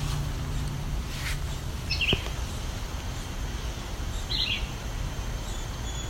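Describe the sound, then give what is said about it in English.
A red-eyed vireo singing two short, high chirped phrases a couple of seconds apart, quiet over a steady low outdoor hiss. “That's a red-eyed vireo there.”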